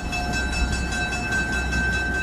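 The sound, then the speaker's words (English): A dinner train at the depot about to depart: a steady, continuous low rumble with sustained high, whining tones running unchanged throughout, and no voices. “right as the dinner train was about to leave”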